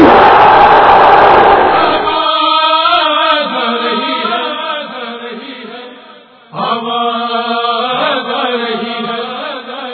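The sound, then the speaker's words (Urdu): A crowd roars a loud shouted response to the Naara-e-Haidari slogan at a religious gathering. The massed outburst fills the first two seconds, then a single voice calls out in sustained tones. “اتنی پوری طاقت سے مولا علی کا اس نعرے کا جواب دینا ہے جس نعرے کو لگا کر ہم جنگوں کو جیت لیتے ہیں. نعرے حیدری,”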